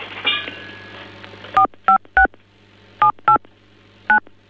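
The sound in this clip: Telephone keypad tones on a phone line that someone is tampering with: six short, bright two-tone beeps in uneven groups, sounding alone over a steady low hum.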